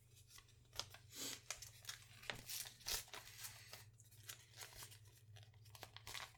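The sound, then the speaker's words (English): Paper tears and crinkles as an envelope is fumbled open at an awards ceremony. Many short, faint rips and rustles come in an irregular series over a steady low hum. “seemed to not be able to open this envelope”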